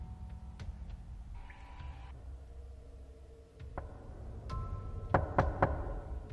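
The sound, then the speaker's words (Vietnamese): Dry knocking on a door: a quick burst of three sharp raps near the end, after a quiet stretch of faint background noise and a few scattered clicks. “bất ngờ tiếng gõ cửa khô khốc lại một lần nữa vang lên.”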